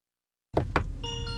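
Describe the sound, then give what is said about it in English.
A car's welcome chime plays as someone gets in: a couple of short thumps, then a bright, steady tonal tune starts and holds. “It plays a little tune every time you get in. It's very cheery. Very cheery. It's a little welcome to your car.”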